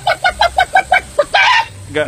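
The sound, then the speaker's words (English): A woman uses her voice to imitate a chicken clucking. Seven short, evenly spaced clucks are followed by a longer drawn-out squawk and one more cluck, all loud and with no other voices. “Guys, she's clucking. She's officially lost it.”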